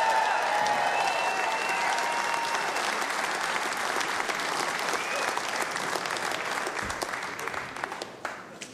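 Audience applause after a live concert song, a steady, dense wash of clapping that holds strong before gradually thinning and fading toward the end.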